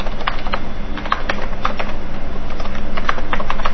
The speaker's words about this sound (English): I'm going to type in my email address